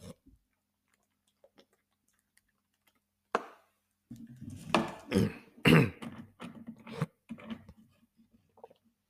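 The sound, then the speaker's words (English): Coughing after choking on spit from inhaling too fast: one sharp isolated cough, then a rough cluster of several coughs and throat-clearing sounds, fairly quiet overall. “Excuse me. I choked on some spit. I inhaled too fast.”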